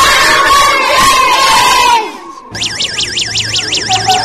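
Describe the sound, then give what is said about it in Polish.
Children in a classroom shout loudly together in a dense, excited roar that stops abruptly. Moments later a noise-level signal device sounds a repeating electronic warbling tone that rises and falls. “Pani wam pozwoli pokrzyczeć.”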